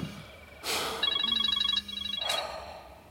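A telephone rings at home during dinner. Its warbling, pulsed electronic tone sounds in two short bursts, with breathy noises just before and after.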